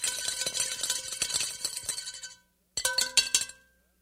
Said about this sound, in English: Stir them rapidly. Stir them rapidly.